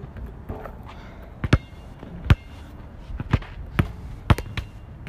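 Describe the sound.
Basketball dribbling by someone practising, a handful of sharp, irregularly spaced bounces thudding over a low, steady background.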